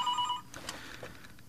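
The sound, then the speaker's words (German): A telephone signal announcing an incoming call to a call-in show: a steady, high electronic tone for under half a second, followed by quieter, mixed sounds. “Und jetzt kommt schon der erste Anruf.”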